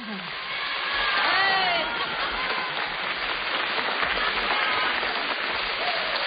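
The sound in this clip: Studio audience applauding on request at an award event, a dense, steady patter of clapping that swells early and holds for about six seconds, with voices faintly over it.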